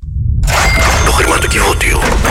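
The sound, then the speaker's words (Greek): Radio contest sound effect of a safe being opened: after a short silence, a loud, dense burst of metallic cracking and rumbling noise runs without a break for about two seconds. “Ανοίγω το χρηματοκιβώτιο. Τι λες, θα το αδειάσεις εσύ αυτή τη φορά?”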